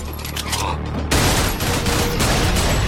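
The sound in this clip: Heavy gunfire erupts during a shootout in a restaurant, with chefs and waiters shooting. A dense, continuous roar of shots swells to full loudness after about a second and stays thick and unbroken to the end.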